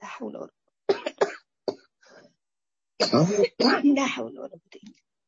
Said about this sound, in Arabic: يا جماعة درسكم مش عارفة بيشد عليه الكحة